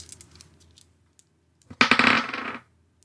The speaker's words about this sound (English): If you'd like to roll resistance, I'll roll menace. So roll 1d6.